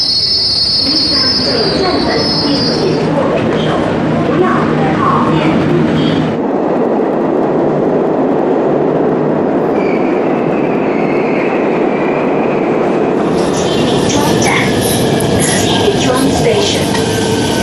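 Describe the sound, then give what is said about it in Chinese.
A metro train arrives at a station, its wheels squealing in a sustained, loud high-pitched screech over a continuous heavy rumble that softens midway and then brightens again near the end. “开往恩河桥北及沿途各站的列车将进站。”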